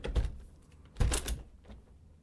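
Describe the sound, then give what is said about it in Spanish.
A window being shut: two quiet clattering knocks, the second stronger and followed by a brief rattle, then a faint softer tap. “Pero ya está, entonces ahora cierro la ventana.”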